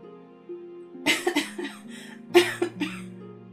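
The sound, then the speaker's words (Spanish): A voice acts out a flower's cough in a children's story: a few short, throaty bursts with groaning voiced tones between them, fairly loud over a quiet background. “La flor tosió pero no porque estuviera resfriada.”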